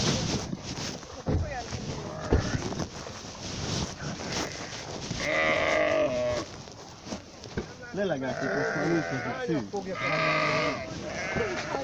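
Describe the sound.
Sheep bleating in a few drawn-out, wavering calls that sound mostly in the second half, with people talking and rough noise around them.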